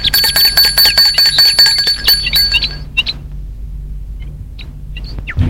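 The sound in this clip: A bell at the gate of a white one-storey house rings in a rapid, bright metallic trill for nearly three seconds, then stops, leaving a few faint clinks.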